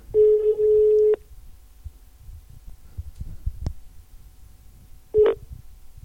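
Ringback tone of an unanswered phone call: one steady, low-pitched beep lasting about a second, then a long pause with faint background noise, then the start of a second identical beep.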